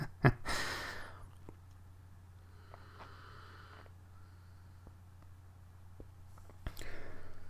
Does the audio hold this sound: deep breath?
yes